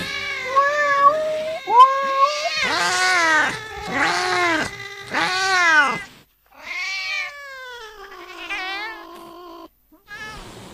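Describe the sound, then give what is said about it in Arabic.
Cat meowing in a series of loud, drawn-out, wailing yowls, each rising and falling in pitch, separated by short pauses, with no other sounds alongside. “لكن صوت القطة اتغير.”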